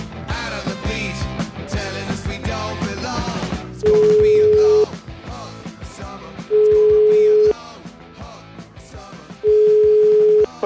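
Telephone ringback tones sound as a call to a lawyer is placed. Three long, steady, level beeps, each about a second, come at even intervals over loud background music.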